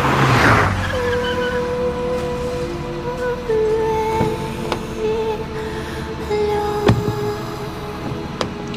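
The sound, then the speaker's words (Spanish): A car driving off quickly: a steady, loud engine drone with tonal hum, broken by a few sharp clicks and ticks. “y el coche partió raudo.”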